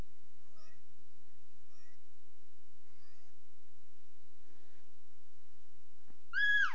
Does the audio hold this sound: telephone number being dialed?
no

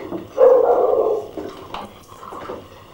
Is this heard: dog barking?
yes

